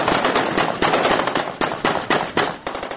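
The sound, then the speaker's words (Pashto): Celebratory gunfire: hundreds of Afghan army soldiers fire into the air in a district bazaar after retaking the district center from militants. Many sharp shots crack in rapid, overlapping bursts, loud and continuous throughout. “د افغان پوځ په سلګونو سرتیرو د ناوې ولسوالۍ په بازار کې د وسلوالو څخه د دې ولسوالۍ د مرکز د بیرته نیولو په خاطر جشن نیولی او هوایی ډزې کړې.”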